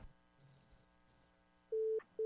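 Dropped-call tone as a phone call disconnects: two steady mid-pitched beeps break a near-silent line, the second cut short.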